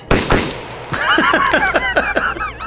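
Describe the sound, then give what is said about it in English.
A gunshot sound effect in a western story. Two sharp, loud bangs come in quick succession, then a run of many whistling, crackling bursts that rise and fall in pitch. “The gunslinger is much quicker. In a split second, his gun is out.”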